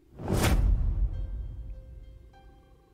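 A single sharp whoosh as a flashlight is swung hard backwards toward a child, followed by a fading low rumble with faint lingering tones.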